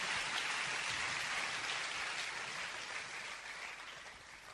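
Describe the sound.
A church audience applauds and acclaims Jesus with soft, continuous clapping that forms a steady wash and slowly fades toward the end.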